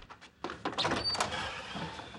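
A door swings open with a faint, sudden knock-like onset that gives way to a soft, sustained rush of sound.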